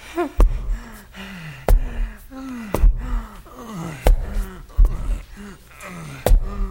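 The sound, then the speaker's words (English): Heavy, labored gasping of a man badly out of breath after climbing stairs, a series of sharp, raspy breaths in a steady uneven rhythm, some carrying a voiced, wheezy tone. “he's taking the stairs. That means he's gonna be way out of breath.”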